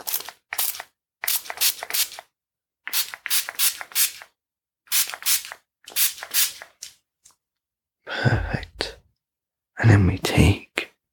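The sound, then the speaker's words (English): Shoe cleaner is sprayed onto a shoe in a string of short, quiet hissing bursts separated by silences. Later bursts sound rougher and louder, like rustling handling noise. “So if I just spray the first shoe,”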